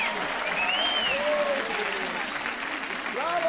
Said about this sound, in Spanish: Aplausos para Susie Loomis, damas y caballeros.